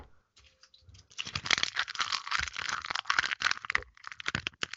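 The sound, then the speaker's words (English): Crinkling of a crisp packet being handled, a dense, bright crackling that starts after a near-silent second and keeps rustling unevenly to the end with no one talking. “I just like grab a crisp packet or something.”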